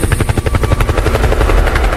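A loud helicopter effect plays in a live DJ set at a Pop Som sound-system party in Ananindeua. The rotor chop pounds in rapid, continuous pulses, layered over a dense, busy mix.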